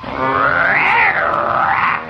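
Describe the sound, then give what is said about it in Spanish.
Dino, the pet dinosaur from The Flintstones, growls in a loud, sustained, warbling cartoon roar that wavers up and down for about two seconds. “Pues Dino, que es el dinosaurio mascota que tenemos Picapiedra”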